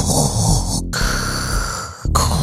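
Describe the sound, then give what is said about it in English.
A man in full costume at a city council committee meeting imitates Darth Vader's mechanical breathing into a microphone: loud, hoarse, rasping breaths in and out, split by two brief silent gaps. “The man approached the podium at the Public Safety and Livable Neighborhoods Committee meeting, fully committed to the character in full costume, with Vader's signature breathing into the microphone,”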